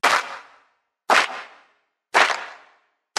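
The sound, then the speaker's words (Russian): Four loud hand claps ring out at evenly spaced intervals about a second apart, each with a sharp snap and a short decay; the last clap is cut off. A chanting crowd claps ritually beside a clay pit where liars are thrown. “«Лжецов бросаем в яму! Лжецов бросаем в яму!» И снова четыре хлопка.”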